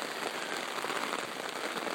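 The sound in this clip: Steady rain falling on a surface, a dense, even hiss of countless drops with no pauses, fairly loud and heard alone.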